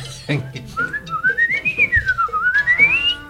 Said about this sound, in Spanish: Bueno, ahí está el silbador. El silbatillo. El jilguerillo. El jilguerillo.